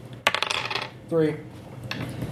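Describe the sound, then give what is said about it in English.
A six-sided die rolled for damage in a tabletop role-playing game, giving a quick burst of sharp clattering bounces that dies away, then a few faint taps. “Roll a d6 for damage.”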